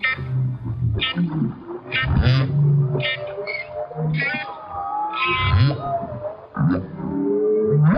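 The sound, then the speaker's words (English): A humpback whale sings as a clarinet plays to it, with long moaning and gliding tones, higher squeals and deep grunting phrases trading back and forth, loud and continuous. “That's the sound of musician and philosopher David Rothenberg serenading a humpback whale with his clarinet. And as you can hear, the whale, incredibly, seems to be singing back.”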